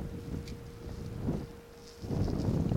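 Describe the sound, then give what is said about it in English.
Wind blows across open moorland of rocks, heather and scrub as a low, rough rumble that dips in the middle and swells louder toward the end, with no voices. “At the moment there's just me and the wind.”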